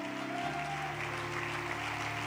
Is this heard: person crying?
no